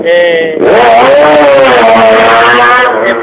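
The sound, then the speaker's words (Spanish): Single-seater race car engines roaring past during a circuit racing cup event: a loud, high, strongly tonal engine howl that surges in after a quieter lead-in and holds with a wavering pitch. “Pueden oír el rugir de los motores de los monoplazas, los Silver Car, los Bangos, que ahora mismo están pasando delante nuestra dentro de lo que es esta Copa CM”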